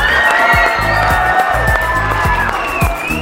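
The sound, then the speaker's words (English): A school crowd cheers and applauds in a sustained, noisy roar of clapping mixed with whoops and shouting voices. “Guys, give them a big hand.”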